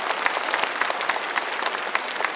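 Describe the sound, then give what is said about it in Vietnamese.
Audience applause at a Vietnamese community event in Austin, Texas, honoring sponsors: a dense, steady wash of many hands clapping at once, loud and unbroken from start to finish. “Một tràng pháo tay thật lớn cho quý vị các thành viên quân.”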